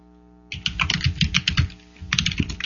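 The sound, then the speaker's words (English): A host typing on a computer keyboard during a live talk radio show: quick, clattering bursts of keystrokes, with one short pause before the tapping resumes. “that you get to hear the host typing away on the keyboard”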